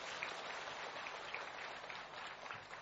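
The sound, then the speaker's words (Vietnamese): Audience applause at a Buddhist retreat, a faint but steady patter of many hands clapping at an even level without a break. “Cho tràng pháo tay hoan nghênh.”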